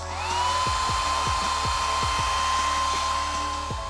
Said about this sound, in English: Maybe you even just blow-dried your hair.